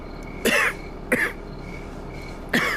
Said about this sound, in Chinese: 您这咳嗽越来越厉害了，您可要保重身体啊。